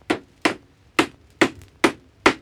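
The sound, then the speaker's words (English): A square peg is hammered into a square hole with six sharp, evenly spaced blows, each a crisp knock that quickly fades into quiet. “George, try hammering the square peg into the square hole this time.”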